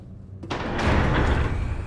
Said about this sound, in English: Here it is. Open this hatch.